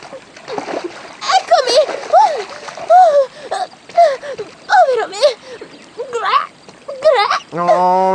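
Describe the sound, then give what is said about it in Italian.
Splashing and gurgling water as someone dives in, with a loud, continuous churn full of rapid rising bubbly chirps that swell and subside in several bursts. “Mi tuffo e sono subito da lei.”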